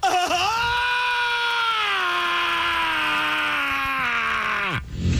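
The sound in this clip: A voice imitates a man's scream-like laugh at punchlines in a movie theater: one loud, piercing wail held at a steady high pitch for several seconds, then dropping sharply and cutting off.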